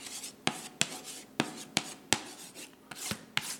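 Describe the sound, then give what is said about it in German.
Chalk scrapes across a blackboard in a run of short, sharp scratchy strokes, as in writing and underlining, each stroke a crisp rasp with quieter rubbing between them. No one speaks. “Und das nochmal zweimal unterstrichen. Auch wenn das nur Kreide auf einer Tafel ist, das kriege ich nicht mehr weggewischt.”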